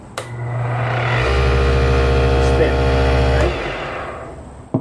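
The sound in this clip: A wood lathe switched on and running while set up for turning custom pens, with a ball-bearing live center spinning: a steady motor hum with a whine rises to full level, holds for a couple of seconds, then drops back.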